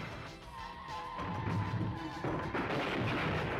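Gunfire in a video game: a dense, loud, continuous crackle of noisy bursts with no clearly separated shots, steady throughout, with a thin tone running through the middle part.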